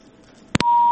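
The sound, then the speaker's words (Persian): Telephone tones from a disconnected call: two short, loud dual-tone beeps followed by a steady, high-pitched tone that holds and then steps up slightly in pitch near the end. “دوری تلفن قطع شوی دی.”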